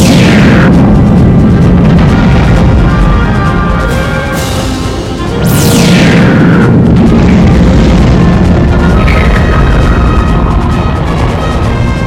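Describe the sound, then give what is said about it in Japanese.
Booming energy blast from a damaged craft's main cannon fired with all power diverted to it: a loud, sustained roar broken by a few high, sweeping whooshes that fall in pitch. “全エネルギーを主砲に回すんだ。撃て。”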